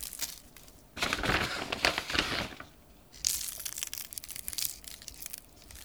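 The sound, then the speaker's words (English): Pressed balls of salt are sprinkled over pretzel dough, mostly onto the bellies, in two long bursts of dense, gritty crackling and crunching split by a short quieter pause. “It's some kind of thing that's been like pressed together into little balls of salt. And I'm gonna sprinkle the pretzels, especially the bellies.”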